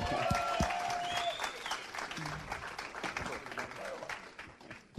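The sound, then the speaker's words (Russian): Enthusiastic applause from an audience greeting a guest: a dense, steady wash of clapping that holds for several seconds, with some voices mixed in, before thinning slightly near the end. “Давайте мы бурными аплодисментами поприветствуем Джейсон.”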